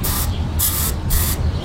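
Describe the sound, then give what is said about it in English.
An aerosol insect spray can hisses at termites in a shed, with several loud, sharp bursts of spray in quick succession. “Well, I was cleaning the shed and I found termites, so I got the spray.”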